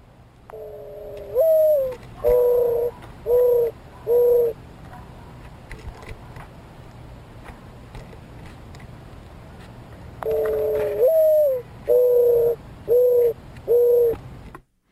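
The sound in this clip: A mourning dove coos in two soft, hollow phrases separated by a long pause, each opening with a longer rising-then-falling note followed by several shorter, evenly spaced hoots, over a faint background hiss.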